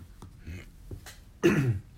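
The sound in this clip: Throat clearing from a speaker with something caught in the throat: a short, rough burst of rasping noise following a few faint, quiet earlier sounds.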